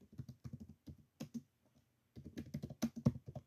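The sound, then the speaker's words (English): Keystrokes on a computer keyboard tap out quietly in uneven bursts of many clicks, pausing briefly partway before the typing resumes. “And yes, I type a little slower.”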